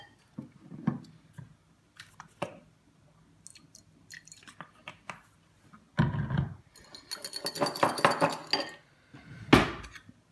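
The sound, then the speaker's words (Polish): Cutlery stirring food in a dish, with scattered light clinks and scrapes at first, then a denser stretch of clattering and scraping toward the end. “Wezmę, zamieszam to.”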